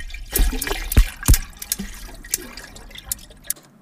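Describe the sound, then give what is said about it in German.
Crackling sounds over a background of water waves: a few sharp, irregularly spaced cracks and clicks stand out above a soft, steady watery wash. “Das hier sind, naja, das hört sich so an wie so ein Knackgeräusch. Daneben sind noch im Hintergrund so Wasserwellengeräusche”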